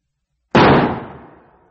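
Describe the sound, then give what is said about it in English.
A single revolver gunshot, fired by a man shooting himself: one sudden, very loud report whose ringing tail fades over about a second after a silent lead-in. “He took a revolver from his pocket and shot himself through the mouth.”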